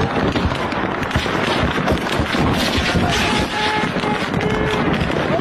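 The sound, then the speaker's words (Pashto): Gunfire from clashes between Shia and Sunni groups in Kurram, heard as a dense, unbroken crackle of many overlapping shots that stays loud throughout. “د ډزو دا اوازونه په کورما کې د شیاګانو او سنیانو ترمنځ لا 15 ورځو د خښشوی جنگ دی.”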